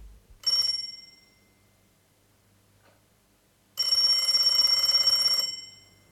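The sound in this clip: A telephone bell rings twice with no voices: a short, bright metallic ring first, then after a pause a much longer, steady ring of nearly two seconds.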